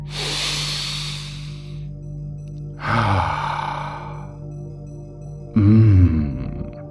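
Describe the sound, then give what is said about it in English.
Deep breaths drawn in slowly, three long breathy hisses in a row, each swelling and fading, over a steady low hum. “Now, today, instead, take another really deep breath in.”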